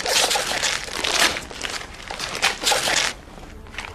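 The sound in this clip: Wrapping paper on a gift rips and crinkles as it is torn open, in several bright, noisy bursts of tearing and rustling.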